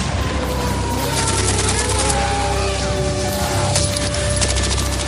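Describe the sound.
Bombs explode in a loud, unbroken barrage, dense crackling bursts and rumbling booms layered continuously, with no pause or talk.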